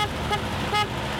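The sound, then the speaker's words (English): A women-run pink taxi in Beirut gives two short horn toots over a steady background of road noise. “That's the sound of Banet Taxi, which means girls taxi in Arabic.”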